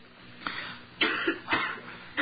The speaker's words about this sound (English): If you've got that little urging there, let them go. Cough them out. That's it. Cough them out.